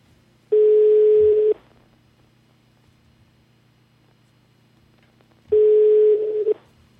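A telephone line rings twice: two steady mid-pitched tones of about one second each, with a long quiet gap between them. The tones are loud and no voices are heard.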